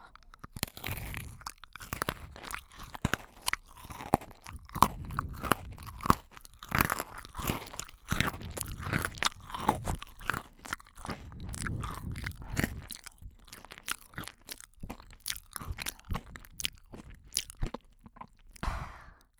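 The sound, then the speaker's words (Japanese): Crunching of chocolate-coated biscuit sticks being bitten and chewed: many sharp, irregular crunches and chewing sounds follow one another at uneven intervals, loud and close, with no talking. “兄さんの大好きなポッキーチョコレートだよ。いっぱいあるから、余ったらポッキーゲームでもする？”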